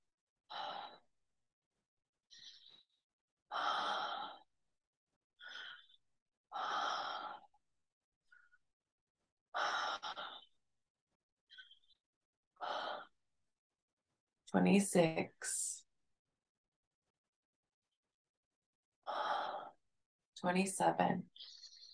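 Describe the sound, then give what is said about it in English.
Deep breaths during a guided breathing exercise, with many slow, breathy inhales and exhales separated by silent pauses. A few are stronger and sharper near the end. “We're going to take it through our last 10 breaths. Deepening that inhale.”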